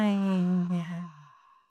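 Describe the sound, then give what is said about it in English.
A voice lets out a long, deep sigh after a held breath, a low voiced tone that sinks slightly in pitch and fades away with no words. “take a deep breath in. And hold it for 5 or 4 and let it out.”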